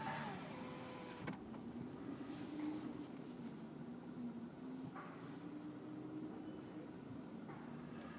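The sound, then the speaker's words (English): A car's power window rolls down at a car wash: a faint, steady electric motor hum drones on for several seconds, its pitch creeping slightly upward, amid low rumbling background noise and a few soft clicks. “Roll the window here.”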